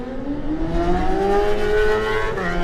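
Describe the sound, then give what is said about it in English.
A BMW racing motorcycle pulls away from the start line at a road race, its engine note loud and continuous and climbing steadily in pitch as it accelerates. “Julian Trummer comes to the line on his BMW”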